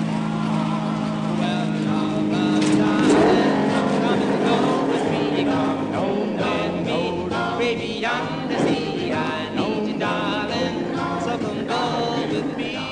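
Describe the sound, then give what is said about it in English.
An old car with a heavy clutch being driven: a loud, continuous engine roar fills the whole clip, with a steady drone and shifting overtones and no clear pauses. “Takes a lot of strength to depress this clutch. This car can get away from you.”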